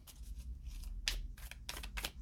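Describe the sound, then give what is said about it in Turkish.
Tarot cards drawn from a deck make several soft papery swishes and slides in quick succession over a low steady hum, with no talk. “Bir de sonuç kartları çekelim bakalım.”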